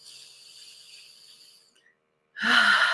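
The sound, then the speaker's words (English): A deep breath: a soft, airy hiss of breath lasting over a second, a brief silence, then a sudden louder, rougher rush of breath. “And take a beautiful deep breath.”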